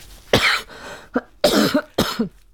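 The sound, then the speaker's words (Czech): A few harsh human coughs come in quick bursts, some short and some fuller, heard alone without any talking. “pardon, v pořádku, mám nějaký kašel”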